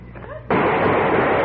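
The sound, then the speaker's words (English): A sudden loud burst of gunfire cuts in midway through a radio drama scene and holds as a dense, harsh roar to the end. A voice is heard just before it. “Oh, they got me. They shot you because you moved.”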